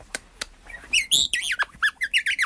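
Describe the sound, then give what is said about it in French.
A European robin gives two sharp, dry ticking notes, then a run of high, squeaky chirps and whistled calls in quick succession. “Et le rouge-gorge est là, il fait des petits tic-tic-tic, comme ça, et puis des petits baisers.”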